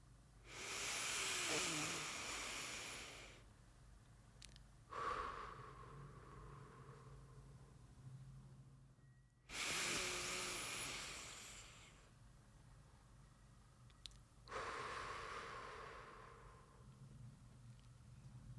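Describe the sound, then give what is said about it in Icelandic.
Deep, slow breathing during a guided meditation: long airy rushes of breath, some louder and some softer, separated by short pauses, a few breaths in all over a faint low hum. “Við ætlum að taka þrjú djúp andatök.”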